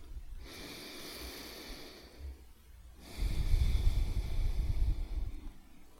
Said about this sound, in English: Okay, so first, as usual, a deep breath.